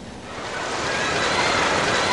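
Warm water washes at an artificial indoor sandy beach, a steady, broad rushing and sloshing that swells slightly louder as it goes on, with no voices.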